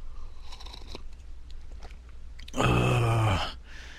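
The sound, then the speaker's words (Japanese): A single short, noisy sip of hot coffee, about a second long, rising out of a low steady background hum. “ちょっとごめんなさい、ホットコーヒーを飲ませていただきます。”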